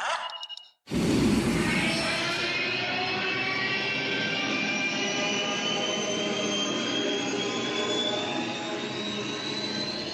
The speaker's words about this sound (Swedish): Kasta er in i tidsmaskinsbilen, kör vi vidare.